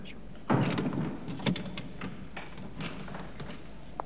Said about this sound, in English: Shortly after, they open double doors.